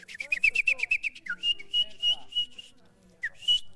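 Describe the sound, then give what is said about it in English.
A Romanian folk musician whistles with the lips to imitate bird calls: a rapid trill of about ten bright chirps, then several longer high held whistle notes with short gaps, ending on a sharp swooping chirp. “So he just demonstrated to achieve a degree of performance where you can actually imitate birds just with your lips or with small instruments”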